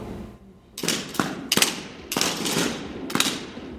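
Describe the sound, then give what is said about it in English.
Simulated rifle fire from imitation AR-15s at a virtual firing range: five loud bursts of rapid, sharp cracks separated by short pauses, with a rattling, echoing tail between bursts and no voices. “The tour ends with a visit to a virtual firing range.”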